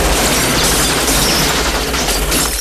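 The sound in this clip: Rapid, sustained gunfire sprayed at a neon sign, a dense, loud rattle of shots running unbroken from start to finish with no voices.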